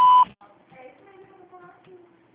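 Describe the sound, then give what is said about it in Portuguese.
A voicemail beep sounds as a single loud, steady mid-pitched tone at the start, followed by faint, quiet speech. “Você ligou para. Por favor, deixe sua mensagem após o sinal.”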